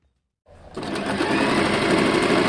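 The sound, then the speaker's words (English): Sewing machines whirring in a small studio above a shop in Sydney's west: after a moment of near silence the motors start up and build quickly into a loud, steady, buzzing hum. “The sewing machines are whirring at a small studio above a shop in Sydney's west.”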